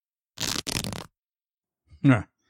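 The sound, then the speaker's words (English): Fabric rips as a bra strap is bitten and torn off, in two quick, harsh tearing bursts back to back. After a pause comes a brief, short voiced sound. “Hold still, I'm going to tear that bra off.”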